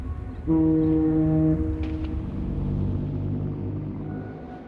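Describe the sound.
A deep foghorn blast from a ship at sea in fog sounds loudly over a steady low rumble, and its tonal hum lingers faintly beneath the continuing drone.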